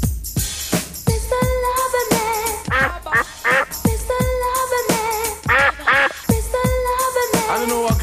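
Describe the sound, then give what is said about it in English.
Duck quacking over and over: many loud, nasal quacks in irregular bursts, some short and clipped, others stretched and wavering, with brief gaps between them. “we will be telling you the true story of a duck from Rotterdam”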